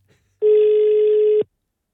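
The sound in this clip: Ringback tone of an outgoing telephone call: one steady, mid-pitched beep lasting about a second, sounding alone against silence.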